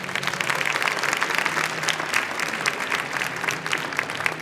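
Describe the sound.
An audience breaks into applause to welcome a speaker, a dense, steady wash of clapping that continues throughout.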